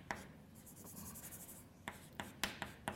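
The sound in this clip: Someone writes out an integral by hand, making scratchy strokes: a few faint scrapes early on, then a quicker run of short, sharper strokes toward the end, with no talking.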